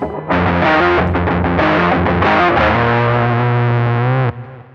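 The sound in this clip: A heavily distorted rock guitar riff with a muddy, thick desert-rock tone plays a quick run of chugging notes. It settles onto a long held low note, then cuts off sharply, leaving a short fading tail.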